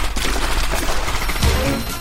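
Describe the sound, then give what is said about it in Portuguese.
Thompson submachine guns fire in bursts, a dense, loud rattle of rapid shots running throughout with a heavier thump partway through. “sinalizaram aos outros dois a paisana que abrissem fogo. As rajadas das submetralhadoras Thompson fuzilaram o bando de Moran.”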